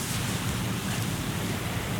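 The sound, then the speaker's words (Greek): Wind blows at a wildfire front in Filothei as a steady, broad rushing roar with constant buffeting against the microphone, with no voices. “Η άνεμη αυτή τη στιγμή υπάρχει άνεμος, υπάρχει όμως θα έλεγα τρία από φόρο. Έχει κοπάσει κάπως.”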